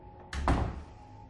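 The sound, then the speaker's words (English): An apartment door closing: a single soft, dull thud with a short rumbling tail, faint and heard alone. “He closes the door behind them, and she turns to face him.”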